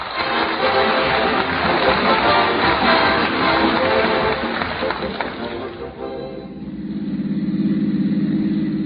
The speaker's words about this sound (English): And here is what happened as they drove to the CBS studio on the way to the 2 Hours of Stars.